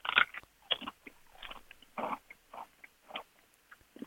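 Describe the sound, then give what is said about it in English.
Crunching from biting into a thin poppadom: a run of many short, crisp cracks and crunches in an irregular rhythm, with the chewing continuing after the first bite. “Oh, the Papa Doms! The Papa Doms. Shall I give it a taste? Mate, do it! It's quite thin. It's on the thinner side.”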